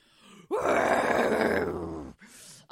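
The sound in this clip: A human voice imitates a wounded creature groaning, the creature stabbed on top of its metal-bound head during a tabletop role-playing game; one long, deep, guttural groan holds for about a second and a half, followed by a short breathy exhale.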